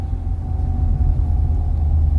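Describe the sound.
A car's engine rumbles low and steady throughout as the vehicle drives, a continuous deep drone with no voices.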